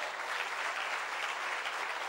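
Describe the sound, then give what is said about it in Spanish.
Church audience applause: dense, steady clapping from many hands that holds at an even level throughout, with no voices standing out. “aplauso al Señor.”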